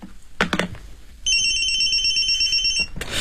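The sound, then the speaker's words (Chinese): A telephone rings in a roadside phone booth, a single sustained bright electronic ring lasting about a second and a half. “按我说的接电话，快。”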